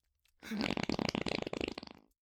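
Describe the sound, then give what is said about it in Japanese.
A single fart, a rippling, buzzing flutter of rapid pulses lasting under two seconds, fairly faint and heard alone. “先生の臭いおなら必死に吸ってさ。”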